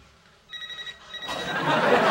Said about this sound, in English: What's that? That is coincidentally my cell phone.